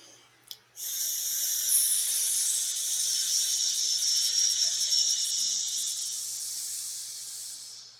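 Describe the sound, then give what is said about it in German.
A long hissing exhale through the teeth in a hissing-snake circular breathing exercise: after a short click, one steady high hiss runs for about seven seconds and slowly fades toward the end. “Nennt sich Kreislaufatmung zischende Schlange.”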